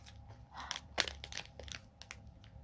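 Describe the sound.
Someone chewing a fresh strawberry with whipped cream makes faint, moist crunching and crinkly clicks. Many irregular small bursts include one sharper snap early on.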